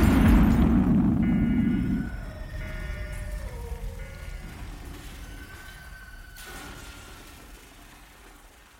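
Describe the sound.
A grenade explodes with a heavy boom at the start, which decays into a long, fading rumble with thin tonal whines above it.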